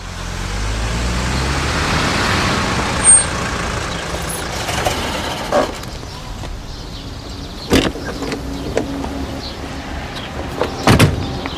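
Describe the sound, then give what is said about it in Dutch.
A car slows, turns and pulls into a hospital parking lot. A broad rolling engine and tyre rumble fades over the first few seconds, followed by quieter idling noise broken by several scattered sharp clicks and thumps. “Ze vertragen, ze draaien af, ze rijden de parking op.”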